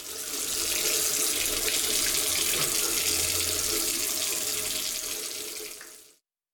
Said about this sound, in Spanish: Si no cerras la llave mientras lavas dos platos o te cepillas los dientes, estás desperdiciando el agua